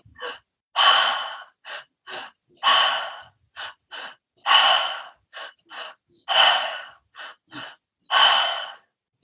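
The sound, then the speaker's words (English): Two-part breathwork through an open mouth: two quick, sharp inhales, belly then chest, followed by a longer breathy exhale. The cycle repeats several times with brief silent gaps. “I'm going to demo the breath. So it's a two-part, you breathe in twice through the mouth. So it's open mouth and it's, so belly, chest, exhale.”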